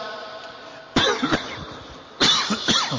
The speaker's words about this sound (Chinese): excuse me， 你看教学生这么容易的还要带着咳嗽